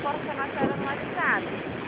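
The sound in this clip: Inside a moving bus, a steady low rumble and road noise drone on, with a voice faintly heard over them.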